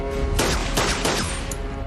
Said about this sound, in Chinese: 见鬼！他开枪了！